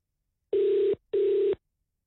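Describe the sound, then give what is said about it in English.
Ringback tone of an outgoing telephone call: two steady, mid-pitched buzzing rings, each about half a second long, separated by a short silence. “Let's make a call. Let's hope they answer. There it is.”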